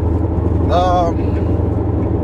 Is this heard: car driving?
yes

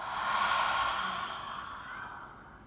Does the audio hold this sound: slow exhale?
yes

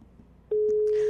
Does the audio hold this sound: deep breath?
no

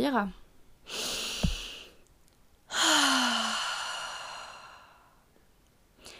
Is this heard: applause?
no

